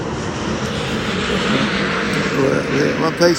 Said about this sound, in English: I'm sitting outside and some planes are flying over, and I apologize if it's disturbing you.